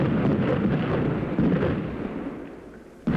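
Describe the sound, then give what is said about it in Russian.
Artillery shells exploding around a battlefield in a dense, continuous low roar of blasts that slowly fades, then a sudden new boom at the very end, with no voices. “Вокруг взрываются снаряды. Небо заволокло дымом и огнем от взрывов.”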